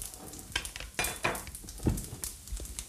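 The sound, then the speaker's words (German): A spoon stirs butter into warm rice with peas, giving soft, irregular scrapes and light clinks against the pot. The strokes are quiet and come as several separate movements, with no voices. “dann nehmen wir unseren Löffel. Einfach jetzt vorsichtig umrühren mit der Resthitze, schmilzt die Butter, verteilt sich das schön.”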